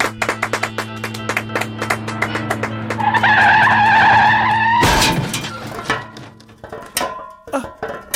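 A car skids and one tire strikes a low wall: a high tire squeal builds over a couple of seconds, then cuts into a sharp crash. Quieter tapping and a steady low hum run under it before and after.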